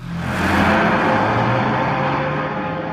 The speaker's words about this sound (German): Porsche Diesel Junior, satte 14 PS und wegen der eleganten Motorhaube Rotnase Rote genannt.